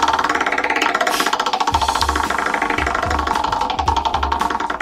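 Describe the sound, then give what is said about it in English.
A large prize wheel spins with a rapid, steady ticking clatter. Its pointer snaps over the pegs in a fast, even stream of loud clicks that carries on through the whole stretch. “I'm spinning the wheel. I've got it turned over toward me.”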